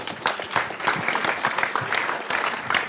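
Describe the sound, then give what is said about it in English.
Steady, dense applause from an audience welcoming medical research panel speakers onto a stage at a university reunion event, sustained without pause for the whole stretch. “We've got Associate Professor Bruce Campbell, Associate Professor Sarah Jane Dawson, and Dr. Sybil McAuley. Please welcome them.”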